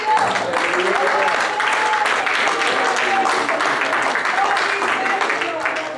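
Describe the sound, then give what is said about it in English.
A church audience applauding during a Sunday morning service, steady dense clapping that holds at full strength throughout, with voices calling out over it. “Let's put our hands together and make some noise for Jesus.”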